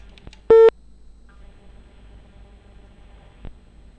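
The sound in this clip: A telephone call is dialled again to a phone that is switched off: one loud, steady electronic beep, then near silence, with a faint short tone near the end.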